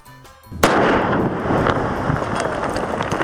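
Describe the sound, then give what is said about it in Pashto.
A landmine explosion in Maiwand district of Kandahar breaks in after a short, quieter stretch: one sudden, sharp blast that rolls into a long, loud, noisy rumble lasting to the end. “دا د هغه مین چاودنې غږ دی”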